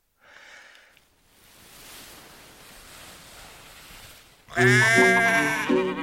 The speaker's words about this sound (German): Die Wiese füllte sich, die Viehschau begann. Schweine, Kühe, Kälber, Schafe, Pferde.